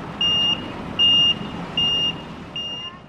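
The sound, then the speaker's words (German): Reversing beeps from military trucks backing up with loads: four steady high-pitched tones, roughly three-quarters of a second apart, over a constant low engine rumble. The last beep is fainter. “Derweil lernen die Afghanen draußen rückwärts fahren mit Militärlasten.”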